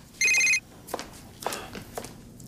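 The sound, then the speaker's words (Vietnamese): A telephone rings once in a short, bright electronic burst of trilling tones, followed by quiet room sound with a few faint knocks. “Nó sẽ gửi đến sớm thôi. Con cứ nghe máy đi.”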